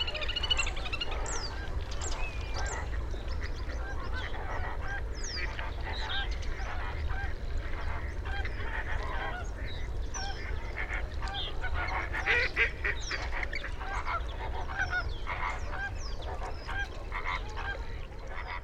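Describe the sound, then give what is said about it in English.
Geese honk and ducks call at a spring wetland at dawn, with a little grebe also present; many overlapping honks and quacks form a dense, continuous chorus over a steady low rumble. “lovely wetland scene, early morning, lots of ducks and geese, there's little grebe there”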